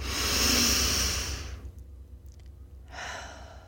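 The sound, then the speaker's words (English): A deep breath taken during a calm relaxation exercise: a long, airy, rushing inhale fades into a short pause, then a second breathy rush begins, with no talk. “Take a deep breath.”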